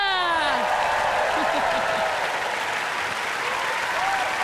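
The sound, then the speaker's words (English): Audience applause at a concert with the BBC Philharmonic Orchestra and the National Youth Music Theatre, dense, steady clapping throughout, with a voice briefly heard over it at the start. “Now, let's give a big round of applause for my boys.”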